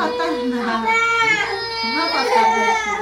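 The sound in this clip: A three-year-old girl in a Syrian refugee family cries for food, wailing in high, wavering sobs that rise and fall continuously and loudly.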